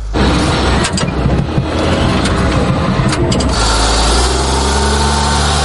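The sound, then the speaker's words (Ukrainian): Loud engine roar from a HIMARS rocket launcher vehicle gaining speed over rough, uneven terrain: a steady, heavy droning rumble with a few brief rattling bursts on top. “Попри свої чималі розміри, «Хаймарс» легко набирає швидкість, і це ще пересічною місцевістю.”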